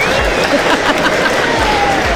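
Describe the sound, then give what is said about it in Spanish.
Audience applause at a live show: steady, dense clapping with crowd noise, loud and continuous across the whole moment. “apláudale a Natalia de nuevo. ¡Un aplauso!”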